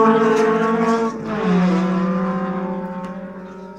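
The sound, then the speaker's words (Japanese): Racing cars roar in a motor race: a loud, high-revving engine with a buzzy harmonic tone that drops in pitch partway through, then holds steady and slowly fades. “一瞬のミスも許されない男の世界。マシンレース。”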